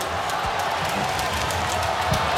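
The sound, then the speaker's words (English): Football crowd at a Geelong AFL match, a big crowd building as play goes on. A steady, dense roar of cheering and murmur holds at an even level throughout, with no clear single shouts standing out. “And the crowd coming into it now, too. Oh, yeah, they're a big crowd.”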